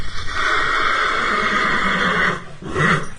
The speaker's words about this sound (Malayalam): പെട്ടെന്ന് കുതിരകൾ ഉറക്ക ചിനച്ചുകൊണ്ട് ചാടാൻ തുടങ്ങി